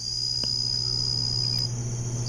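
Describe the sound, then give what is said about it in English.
Jungle insects in Borneo keep up a continuous high, steady buzzing drone with a faint lower hum beneath it, and a few soft clicks and chirps rise briefly out of it. “it's a little bit of atmospheric insects from the jungle in Borneo.”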